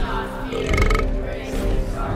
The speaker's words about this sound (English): Please leave a message after the burp.